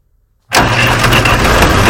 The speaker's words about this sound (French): Le démarrage d'un tracteur. Oh, tracteur en plus.